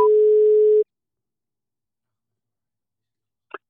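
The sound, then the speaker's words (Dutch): Telephone call tone while phoning someone: a single steady, mid-pitched ringback burst under a second long, followed by silence and a brief click near the end. “We gaan hem even bellen. Gaan we bellen?”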